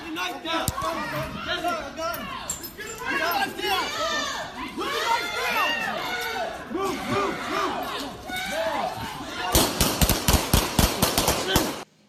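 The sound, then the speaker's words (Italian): Gunshots from a shooting in Philadelphia ring out as a rapid volley of sharp cracks near the end, after a stretch of agitated crowd shouting and chatter. “Ieri è stato ucciso un afroamericano a Filadelfia. Abbiamo l'audio, tra l'altro, di questa sparatoria.”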